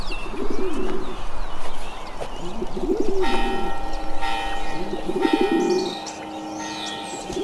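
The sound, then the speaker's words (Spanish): Church bells ring out partway through with sustained, overlapping metallic tones, over continuous low cooing of pigeons or doves and scattered bird chirps. “¿Y esas campanas? ¿Quién anda ahí?”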